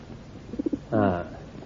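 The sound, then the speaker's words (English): A carrier pigeon coos softly as it is released: three quick low pulses, then a longer, throaty, rolling coo, all faint. “If this bird was caught only last week in the woods south of here, it'll fly home. It'll fly south. If it's an army carrier pigeon, it'll fly to the German line. It will fly north.”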